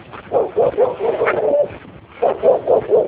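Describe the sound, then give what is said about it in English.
Dogs bark in a series of sharp bursts with a few yips mixed in. A short lull falls partway through before the barking picks up again. “Dogs. I don't know if they're happy dogs or they're angry dogs. You really can't tell the difference.”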